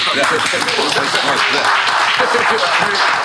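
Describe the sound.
An audience at a hip-hop show claps and cheers, a steady rush of clapping and crowd noise with voices mixed in throughout.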